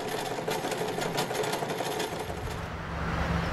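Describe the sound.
A sewing machine in a small business making girdles and underwear runs continuously, with a loud, rapid, even stitching rattle and no talking.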